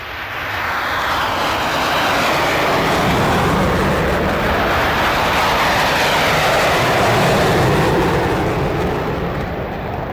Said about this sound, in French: ça c'était deux F-14 au décollage avec la post-combustion.